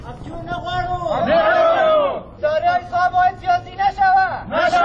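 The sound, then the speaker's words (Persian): Protesters chant at a Kabul demonstration by dismissed staff of an investment support agency, a crowd voicing long drawn-out shouts followed by short, rhythmic repeated bursts. “جزئیات بیشتر در گزارش تمیم اخگر که با صدای اعتراض کننده ها آغاز می شود.”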